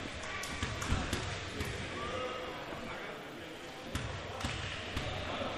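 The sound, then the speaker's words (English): Basketball dribbling during a free-throw attempt at a game, with a few sharp bounces cutting through steady crowd noise. “Right hand dribble.”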